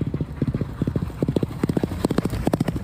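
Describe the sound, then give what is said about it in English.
Galloping racehorse hoofbeats pound out many rapid thuds in tight rhythmic clusters, steady and even from start to finish. “Just tell us a bit of what you like about this sound of this galloper right now.”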